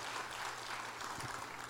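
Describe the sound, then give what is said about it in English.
Audience clapping for a speaker, a steady, even wash of many hands that stays faint and unbroken for the whole short stretch. “I don't know how to properly respond to clapping yet.”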